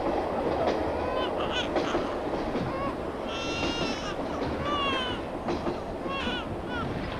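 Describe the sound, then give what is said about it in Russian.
A crowded open-plan sleeper carriage (platskart) running on rails. A steady low rumble and clatter runs throughout, with people's voices and occasional high squealing tones above it. “Мальчик смотрит на проносящийся за окном пустой параллельный путь. Переполненный плацкартный вагон.”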